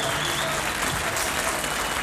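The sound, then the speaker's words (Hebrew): A festival audience applauds at a 1997 music festival in Arad, producing a continuous, dense patter of many hands clapping at an even, moderate level throughout. “הרבה כפיים הוסיפו למצב הרוח.”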